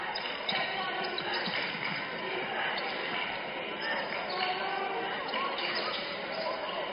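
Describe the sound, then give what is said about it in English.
A basketball is dribbled on the court during a game, a run of quick, rhythmic bounces under a commentator's steady talk. “Todd trying to put on a little dribbling clinic out there.”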